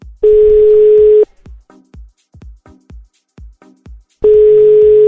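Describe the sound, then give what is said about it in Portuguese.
Telephone ringback tone on a call: two long, steady, loud tones about three seconds apart, with faint short ticks and clicks in the quiet gap between them. “Vamos ligar e ver.”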